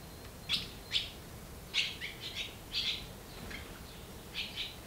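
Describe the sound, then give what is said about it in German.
Barn swallow nestlings in a nest in an old horse stable call for food: a series of thin, high chirps in short bursts of two or three, fairly faint, with brief gaps and no talk. “Drei kleine Schwalben sind hier geschlüpft und haben Riesenhunger.”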